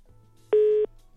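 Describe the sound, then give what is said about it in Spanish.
A telephone line tone sounds after a call cuts off: one steady mid-pitched beep, then the start of another, clear and alone above a faint low hum. “Ay, parece que se cortó la llamada con Joaquín.”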